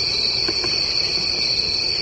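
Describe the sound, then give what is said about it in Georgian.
Crickets chirp in a steady, high-pitched, continuous chirring that holds even in loudness through the whole stretch, with no voices. “ასობით მილიონი ადამიანისთვის ეს უბრალოდ ჭრიჭინების ხმა არ არის.”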